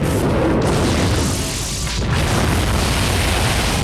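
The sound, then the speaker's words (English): A huge explosion destroys a space liner as a dense, loud roar of boom and rumble that fills the whole clip, dipping briefly in the middle before surging back. “numerous internal explosions start wrecking the whole space liner until it is finally destroyed in one huge big bang.”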